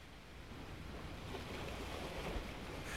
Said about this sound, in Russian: Был ветер, и волны с шумом пенились у крутого берега.